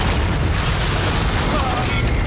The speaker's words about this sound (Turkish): Ateş! Roketler yolda. Tehlike!